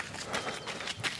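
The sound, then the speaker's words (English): Footsteps of a wintry morning run, many quick, evenly spaced crunching steps in a steady rhythm at moderate loudness, with no other sound around them. “This is the sound of a wintry morning run.”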